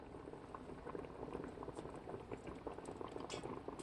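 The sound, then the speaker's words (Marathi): Eggplant simmers in a covered pot with water set on the lid, seasoned with chili powder. The bubbling is faint and steady, with soft irregular pops. “झाकणात पाणी ठेवून वांगी शिजवायची आहेत”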